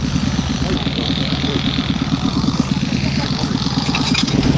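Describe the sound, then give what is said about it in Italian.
Steady tractor engine drone driving an air compressor that powers pneumatic olive-harvesting beaters on a farm in Foggia province by the Adriatic; a loud, continuous low rumble with a dense mechanical hiss above it and no breaks throughout. “Quello che ascoltate in questo momento è il rumore del trattore che alimenta il compressore per spingere l'aria all'interno degli abbacchiatori.”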